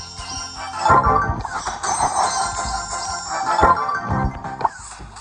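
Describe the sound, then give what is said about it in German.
Big boxes open in a video game with a busy run of electronic effects: tinkling chimes, swooshing sweeps and a few heavier punchy hits, continuous and fairly loud throughout. “Dann öffne ich jetzt mal Big Boxen.”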